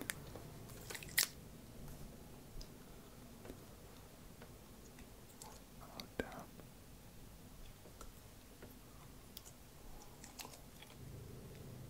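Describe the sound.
Biting and chewing gummy balls in an ASMR video: faint, sticky clicks and a few sharper crunchy bites scattered over steady low background noise, with no talking.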